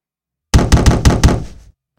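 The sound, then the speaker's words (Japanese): Knocking on the lower part of a car's driver-side door: five quick, hollow, heavy knocks in a steady rhythm, with a short ring-out after the last, then silence. “どこから叩いてるの？ どうやら運転席側のドアの下側を叩いているようだった。”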